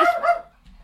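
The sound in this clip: A dog lets out a brief, loud bark with a bright harmonic tone. The bark fades quickly into near silence.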